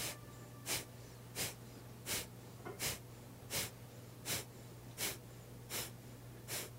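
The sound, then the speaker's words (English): Rhythmic breathing during a guided breathing exercise: nine short, airy puffs of breath, evenly spaced and all of similar strength, over a steady low hum. “Breathe in, breathe out, and breathe in, and again.”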